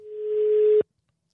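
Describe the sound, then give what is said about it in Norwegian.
A telephone call tone sounds while someone is being rung up on the phone: one steady, mid-pitched tone lasting under a second that cuts off abruptly into silence. “Skal vi prøve å ringe opp Hans-Erik her også?”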